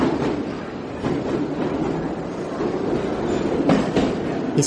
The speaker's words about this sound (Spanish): Llega el metro. Me preparo y cuando entro al vagón vuelvo a murmurar para mí, aquí voy.